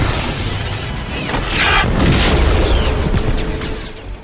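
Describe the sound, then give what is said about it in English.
Star Wars battle sound effect of stormtroopers firing, a loud, dense barrage of blaster bursts and rumbling booms that swells slightly toward the middle and stays intense throughout. “Yeah! We're under attack! Stormtroopers on the double!”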